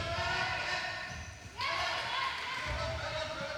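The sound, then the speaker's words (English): A basketball bounces during a Chicago Bulls game, giving a few dull low thumps beneath steady background noise and people talking. “The sound you just heard is basketball and no one talking. Chicago Bulls put in the basket.”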